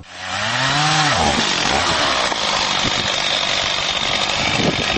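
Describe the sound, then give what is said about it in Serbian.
A chainsaw cutting an apricot tree starts up and revs quickly to a loud, buzzing engine whine, then holds a steady rough drone with slight wavering. “Testera je džabe uključivana.”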